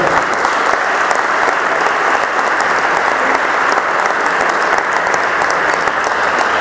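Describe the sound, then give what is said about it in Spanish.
Loud, sustained audience applause at a tango event opening, dense clapping holding steady for several seconds with no talk over it. “pido un fuerte aplauso para Nicolás Trone.”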